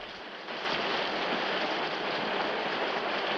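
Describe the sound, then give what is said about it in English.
Driving rain pelts a roof with a dense, steady hiss that swells in after a brief quieter opening and then holds an even roar. “With a look of despair, he heads back outside into the driving rain.”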